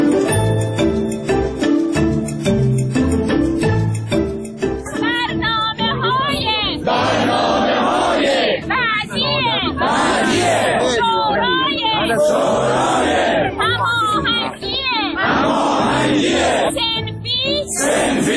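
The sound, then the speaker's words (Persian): Protesting teachers rallying in front of Iran's parliament, a loud crowd chanting in short repeated rhythmic bursts, preceded by a brief stretch of music. “این صدای معلم‌های معترضی بود که برای رسیدگی به وضعیت حرفه‌ای و معیشتی خودشون کمتر از دو ماه پیش روبروی مجلس تجمعی مسالمت‌آمیز رو برگزار کردند.”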